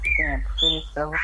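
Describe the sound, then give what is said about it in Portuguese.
A bird sings nearby with a few brief, high chirping whistles between stretches of people talking on a call. The chirps are short and sit just above and between the voices. “Olha o passarinho cantando lá. Ó.”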